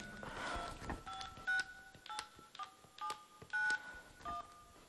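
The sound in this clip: Touch-tone telephone dialled on New Year's Eve: a quick series of short, clear dialing beeps at differing pitches, separated by brief gaps over faint background noise.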